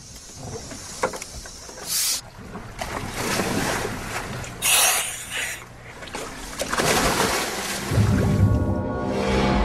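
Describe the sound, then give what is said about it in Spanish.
Water splashes as a diver in a pressurized, sealed suit enters the cold sea. Irregular splashing surges rise over a continuous rushing wash of water, growing louder toward the end. “Estoy entrando un poco en calor, voy a meterme en el agua.”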